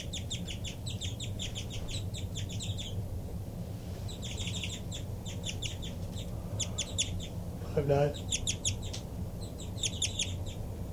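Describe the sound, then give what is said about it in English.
Rapid bird flight calls, one bird answering another's calls: quick clusters of high, thin chirps repeated in bursts with short pauses, fairly faint over a low steady background rumble. “5-9 now getting really rapid flight calls in response to 3-3. Sounds like a real good call match.”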